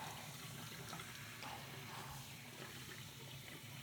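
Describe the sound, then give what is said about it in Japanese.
Soft running water rinsing shampoo foam from the sides of a head of hair: a faint, steady splashing flow that goes on unbroken. “頭の両サイドもジャブジャブ洗い流して、隅々まで泡をきれいに落として、”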